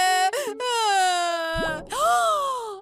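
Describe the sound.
Crying from a person: loud, tonal wailing in long drawn-out notes with wavering pitch, a brief break partway through, then a final bending wail that trails off.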